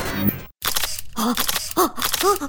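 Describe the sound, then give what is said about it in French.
A camera shutter firing as photos are taken: a quick series of clicks and mechanical snaps, broken by a brief moment of silence early on. “Mais t'as fini de prendre les auditeurs en photo, toi?”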